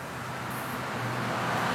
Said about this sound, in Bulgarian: Всъщност трафикът е интензивен, но пък спокоен